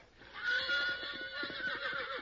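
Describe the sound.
A mean, ornery horse lets out one loud, quavering whinny that lasts about two seconds, its pitch wavering as it goes, with no voices.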